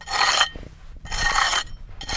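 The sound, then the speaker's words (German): A trowel scrapes the earthen walls of a half-metre-deep excavation pit at a Celtic farming village dig, making loud, gritty rasping strokes with brief pauses between them, the last one cut off at the end. “Mit einer Kelle schabt er die Wände ab und legt Millimeter für Millimeter die Überreste eines Gebäudes frei.”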